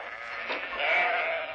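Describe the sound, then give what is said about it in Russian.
A karakul sheep, a breed of the desert pastures of Central Asia and southern Kazakhstan, gives a single sustained, wavering bleat of about a second and a half, moderately loud and alone. “Каракульская овца в нашей стране занимает колоссальные территории в республиках Средней Азии и Южном Казахстане.”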